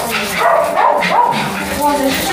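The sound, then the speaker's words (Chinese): Several small dogs in a home yip, whine and bark excitedly at the doorway as visitors arrive. The sound is continuous and loud, with people talking over it. “这么多小狗。”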